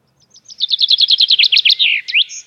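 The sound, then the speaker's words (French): A common chaffinch sings its typical song: a loud, rapid run of bright, repeated chirps that speeds up and falls gradually in pitch, ending in a short, higher flourish. “Alors ça, c'est le pinson des arbres, effectivement.”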